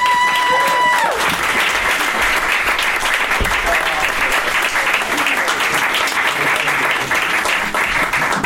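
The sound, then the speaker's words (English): Audience applause at a comedy show, loud and sustained clapping with cheering that carries on steadily for over eight seconds. It starts with a fading musical tone and a voice briefly heard over it. “Give a round of applause for the very, very goddamn genius mind of Anatoly Brandt!”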